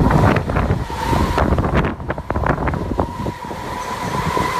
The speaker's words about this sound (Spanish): En Portbou vive la tramontana. Vive. Vive. Aquí vive la tramontana. Es el pueblo donde más sopla.